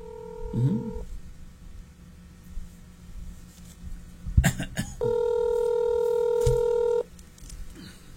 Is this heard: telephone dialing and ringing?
yes